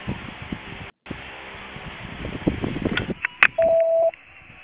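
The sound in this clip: A single steady, mid-pitched voicemail beep tone sounds near the end, after a stretch of low rustling and clicking noise.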